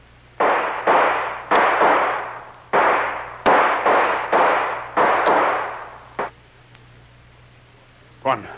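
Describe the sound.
Gunshots ring out as a string of loud, cracking bursts with long ringing decays, most of them close together, followed by two isolated shots.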